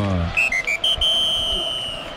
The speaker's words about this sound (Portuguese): Agora sim, Rodrigo José apita pela última vez do primeiro tempo.